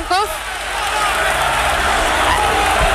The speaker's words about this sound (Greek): Αποθεώνεται ο Γιώργος Μπατζόκας, ο οποίος και αυτός ανταποδίδει το χειροκρότημα